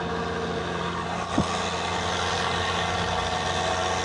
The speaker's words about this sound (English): And occasionally you hear traffic flying by and brakes and stuff and noises and stuff like that.